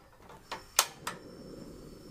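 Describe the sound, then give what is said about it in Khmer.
A gas stove burner is turned on for cooking a stir-fry: three sharp clicks of the igniter come in quick succession, followed by a soft, steady hiss of the flame. “ដូច្នេះពុកម៉ែបងប្អូនទាំងអស់គ្នាយើងនឹងចូលរួមទៅការបង្ហាញជូននៅវិធីធ្វើចាមុនដំបូងនេះនាងខ្ញុំនឹងបើកភ្លើង”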